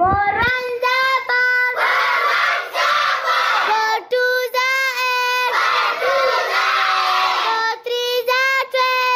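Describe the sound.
Students' voices shouting together at a community school in Mohmand, loud sustained chant-like cries in repeated phrases with brief pauses between them.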